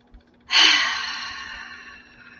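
A single long breath pushed out through an open mouth during a guided breathing exercise. It starts abruptly and loud, then tapers off gradually over about two seconds, with no talk.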